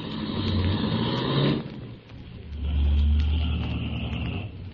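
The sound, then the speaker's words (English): A car driving slowly along a road gives a steady low engine rumble. The rumble dips briefly, then swells back louder and holds, with no talking. “I'll drive along slowly.”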